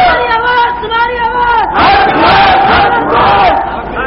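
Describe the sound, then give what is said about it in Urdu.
A crowd at a religious speech shouting "Allahu Akbar" in unison in response to a takbir call, loud massed voices in two long, sustained chanted phrases. “نعرہ تکبیر،”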